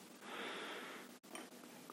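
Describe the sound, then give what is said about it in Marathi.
A deep inhalation drawn in as a guided breathing cue before chanting Om in a calming meditation. It is a soft, airy rush that holds steady for about a second and then stops abruptly. “श्वास घ्या”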